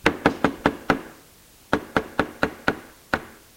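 Someone knocks on a house door with sharp wooden raps in two quick series. The first series has five evenly spaced knocks. After a short pause, a second, longer run of knocks follows at a similar pace.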